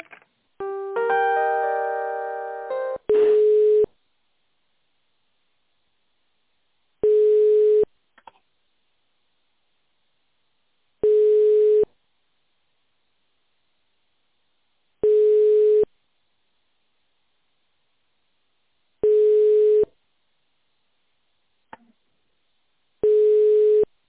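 A telephone line tone plays while a call is transferred to a department: a short melodic signal opens, then six steady beeps repeat evenly about every four seconds, each separated by silence.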